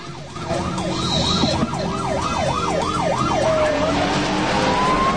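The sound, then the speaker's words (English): Police car sirens wail during a car chase, a rapid rising-and-falling cycle repeated many times before settling into a steadier tone, loud over constant engine and road noise. “The cop cars appear behind them.”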